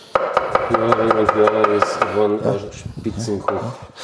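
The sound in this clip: A knife rapidly chopping an onion on a board: many quick, crisp taps in a steady rhythm with a voice talking over them. The chopping thins out toward the end.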